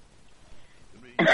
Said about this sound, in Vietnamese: Chị ho, chị đừng có cho ta biết, chứ ta biết là chị già thiệt đó.